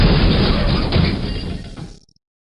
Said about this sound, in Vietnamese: cái cửa lớn của tỉnh thất bị vỡ ra, đất đá bạo liệt văng đi tứ phía.